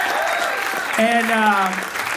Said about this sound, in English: Round of applause for him, by the way, very funny guy.